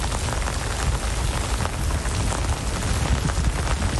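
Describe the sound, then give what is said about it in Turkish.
Heavy rain pours down on Istanbul during a city downpour at Taksim Square, a dense, steady hiss of drops hitting the ground that stays loud and even throughout, with no voices. “İstanbullunun sağanakla sınavı zor oldu.”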